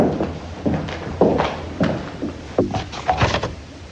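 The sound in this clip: Several heavy footsteps of a colonel thud at a steady walking pace, each a dull, solid knock with quiet gaps between.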